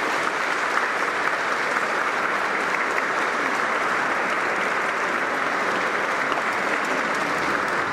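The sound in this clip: Applause from a parish audience fills the whole stretch, a dense, steady clapping of many hands at an even volume without pause.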